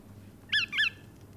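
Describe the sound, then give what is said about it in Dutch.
Two brief, nasal squawking calls of a bar-tailed godwit; the second call is slightly longer than the first. Both are fairly high and stand out clearly over a faint low background hum. “laten we meteen even beginnen met het geluid van de Rosse Grutto. Want we gaan het zo meteen hebben over hoe die eruit ziet. Want hij ziet er een beetje anders uit dan de gewone Grutto. Maar dit is zijn geluid.”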